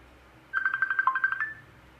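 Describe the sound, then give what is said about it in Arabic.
A phone rings with an incoming Messenger call: a rapidly pulsing, high electronic warble lasting about a second, alone over faint background hiss. “عم بترن علينا؟ هو بيرن علينا. هو بيرن علينا.”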